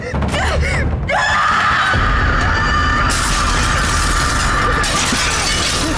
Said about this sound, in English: Was that a bomb on the window? They just exploded!